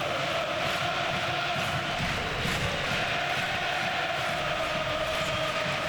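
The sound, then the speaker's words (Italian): Football fans at Parken Stadium in Copenhagen make noise during a Copenhagen versus Galatasaray match: a dense, steady crowd roar that stays even, with no distinct peaks. “tanta confusione fanno i tifosi del Parken Stadion, e hanno ragione questo di farla, perché il Copenaghen vince 1-0, batte il Galatasaray”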